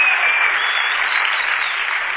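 A church audience breaks into applause, a dense, even clapping that stays steady throughout with no talk over it.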